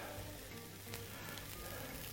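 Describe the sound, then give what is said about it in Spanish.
Meat browns in a pan with oil, giving a faint, steady sizzle and crackle that continues evenly throughout. “Un hilito de aceite. A ver. Mira, 3, 6, 7. Pues qué pena, podrían haber sido 8. Un poquito de sal.”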